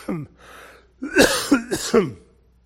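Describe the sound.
A person clears their throat harshly, as if something is stuck in it: one short rasping burst, a brief pause, then a rapid cluster of four guttural hacks.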